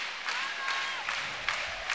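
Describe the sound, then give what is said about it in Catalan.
Handball crowd livening up and applauding during a match, a steady wash of clapping and crowd noise with a few sharper claps standing out. “S'anima el públic.”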